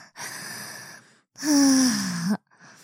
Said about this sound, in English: I'll take a deep breath.